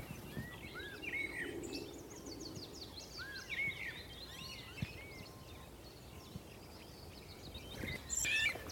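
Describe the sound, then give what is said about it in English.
A blackbird sings from an alder tree above a small bridge over a waterway. Many short, fairly faint phrases of song repeat over a steady outdoor background. “So now we're heading onto a little bridge over a waterway uh, while a blackbird sings from a, an alder above us.”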